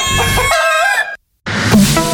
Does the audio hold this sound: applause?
no